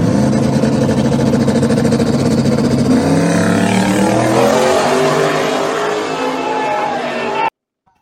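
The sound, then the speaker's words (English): A race car engine on asphalt revs hard as the car accelerates with its tires breaking loose. A loud, dense roar climbs in pitch through the second half, then cuts off abruptly. “So the tires are breaking loose out there.”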